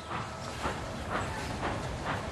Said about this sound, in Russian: Бегут колеса, пыхтит паровоз.